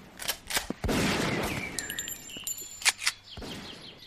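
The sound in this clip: Gunfire on a military training ground: a few sharp, loud shots crack out at irregular intervals over a noisy, rumbling background.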